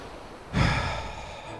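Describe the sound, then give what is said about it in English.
Deep exhale during a group prayer practice: one breath starts abruptly, a broad soft rush that slowly fades. “So let's exhale.”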